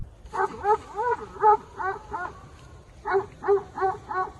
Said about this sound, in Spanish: nos muestra un vídeo que grabó con uno de sus mastines defendiendo al rebaño contra una manada de jabalíes